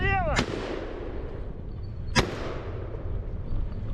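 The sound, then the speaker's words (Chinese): Gunfire from a moving vehicle aimed at low-flying targets, such as drones, at a training range. Two sharp, loud shots ring out about two seconds apart over a continuous, noisy rumble. “训练的科目即机动车行进中对低空目标的射击。”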